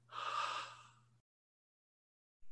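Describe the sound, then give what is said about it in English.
A person forcefully lets all their breath out in a single long, breathy rush lasting about a second, loud and airy, followed by silence. “Try letting all your breath out. And now try to talk. Try it. Let all your breath out.”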